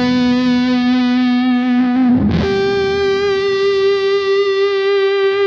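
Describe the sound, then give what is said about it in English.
An electric guitar with its volume at maximum plays through a Kemper fuzz set for an octave tone, giving a muffled, warm, heavily distorted sustained note that jumps to a slightly higher pitch partway through and rings on steadily. “You hear it already, it goes into the octave tone. It's great on that guitar.”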